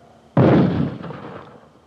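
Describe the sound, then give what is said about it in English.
A mortar fires about 40 feet away in Vietnam: a single loud, sharp boom with an abrupt onset, followed by a broad rumbling tail that fades over roughly a second and a half. “that was, mortars. It just fired maybe 40 feet in back of me.”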